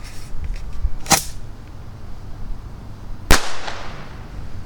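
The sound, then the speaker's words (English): Bottle rockets launch from a tube outdoors, giving two sharp, loud cracks a couple of seconds apart. The second crack is followed by a short, fading hiss over low background noise. “I'm setting up a tube here, and I've got a dozen bottle rockets in my hand. So we're gonna launch some bottle rockets. Here we go, rocket number one.”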